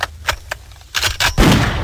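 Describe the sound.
Gunfire as a sound effect meant to represent the city of San Pedro Sula: a few sharp, loud shots in irregular succession, ending in a heavier, sustained burst of noise.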